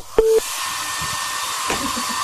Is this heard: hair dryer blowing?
yes